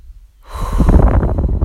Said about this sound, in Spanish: Vamos a respirar profundo, inhalando por la nariz y exhalando por la boca.